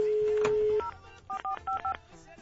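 Telephone keypad tones: a long steady tone gives way to a quick run of short, evenly pitched dual-tone beeps as a number is punched in.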